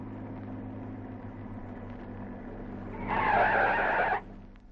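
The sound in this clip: A car's tires skid to a stop in a single harsh screech lasting about a second. It surges out of a steady low hum, stays loud, then cuts off sharply.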